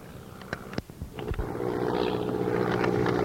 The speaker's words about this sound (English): Okay, we're going to have a couple on takeoff here in just a sec.